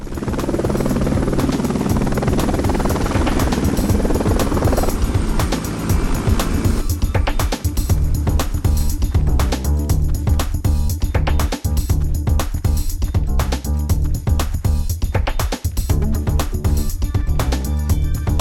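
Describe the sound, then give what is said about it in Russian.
A helicopter flying and then setting down on the roof of a multistory building. A loud, continuous engine roar runs throughout, and a rhythmic rotor chop grows more pronounced in the second half. “Вертолет летит в небе, он сел на крышу многоэтажного здания.”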